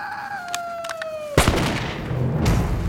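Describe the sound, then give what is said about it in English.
A single gunshot at night, a sharp, loud crack followed by a rough, decaying rumble. It is preceded by a wavering, falling cry. “Why did you fire? I saw something there in the brush.”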